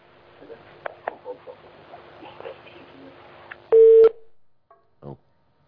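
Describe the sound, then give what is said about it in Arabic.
A telephone line tone marks an incoming caller on a call-in show: one loud, short, steady beep follows faint background talk, then a brief chirp. “معنا اتصال”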